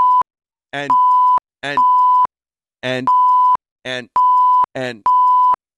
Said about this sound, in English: Now, did you hear those beeps? Yep. Those are the security.